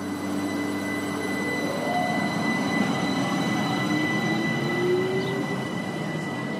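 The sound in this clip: A train rolls between the mountains of the Salzkammergut from Bad Ischl toward Styria, with a steady, heavy rumble of wheels on track and thin squealing tones that drift up in pitch, and no voices.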